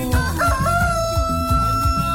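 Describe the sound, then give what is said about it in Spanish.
A rooster crows once, loud with a bright harmonic call, over a steady rhythmic low beat. “¡Canta, gallo!”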